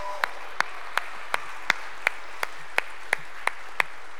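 Hand claps welcoming a guest at a church gathering: eleven sharp, evenly spaced claps in a steady, unhurried rhythm, each crisp and distinct over quiet background.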